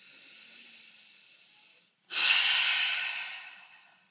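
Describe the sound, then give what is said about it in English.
One slow deep breath: a soft, steady inhale through the nose, a brief pause, then a louder, airy exhale through the mouth that gradually fades. “So you're going to inhale through your nose. You're going to take a deep exhale through your mouth. In through the nose.”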